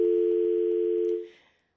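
A telephone dial tone sounds on a radio call-in line after a caller's line drops: a steady mid-pitched hum with faint regular pulses, fading out at about 1.3 seconds into silence.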